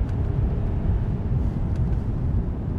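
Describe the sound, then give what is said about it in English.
A car engine, driven along a road past a metal fence and portable cabins, rumbles steadily as the driver changes gear and accelerates, giving a continuous, fairly loud low drone throughout. “Budge changes gear again. All right, let's do this. Budge accelerates as he drives alongside a metal fence and past porta cabins.”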